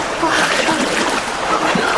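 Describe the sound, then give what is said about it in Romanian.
Steady splashing and sloshing of deep water as someone slips in, a continuous broad watery wash with no single sharp impact. “Apa e destul de adâncă, așa că poți să te strecori ușor.”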